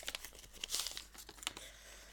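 Faint crinkling and tearing as a mint tea bag is opened, a few short papery rustles and crackles with one louder tear, heard alone.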